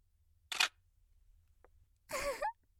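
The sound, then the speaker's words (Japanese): A camera shutter fires as a photo is taken: two brief, crisp mechanical bursts, the first a sharp click and the second a slightly longer whirring snap. “撮るよ。はい、チーズ。”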